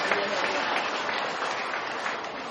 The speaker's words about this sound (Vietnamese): Tôi xin hoan nghênh những cánh tay le que đó, cho chàng pháo tay.